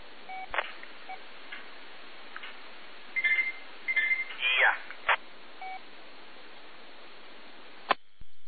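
Telephone dialing tones: a few short electronic tone bursts cluster midway through, with a quick sweeping tone and sharp clicks, all over a steady hiss.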